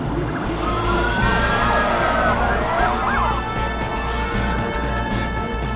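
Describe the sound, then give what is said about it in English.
Emergency sirens wail from police vehicles speeding along bridges into Manhattan, their rising and falling tones weaving over a constant, heavy rumble of engines and traffic. “An armada of police vehicles speeds along bridges into Manhattan, emergency lights flashing.”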